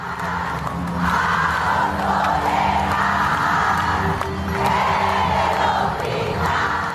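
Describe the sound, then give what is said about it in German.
Thousands of supporters in Buenos Aires cheer at night after the Senate passes an abortion law, a broad, sustained roar of crowd cheering and yelling with rising swells. “Mitten in der Nacht feierten in Buenos Aires tausende Befürworterinnen der Fristenlösung diesen Entscheid.”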